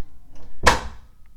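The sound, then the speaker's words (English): A door is pushed shut by someone whose hands are full, landing as one solid thud that rings out briefly and decays into quiet room noise. “I walked too far, and now I have no hands to open the damn door. There we go. Close the door behind me.”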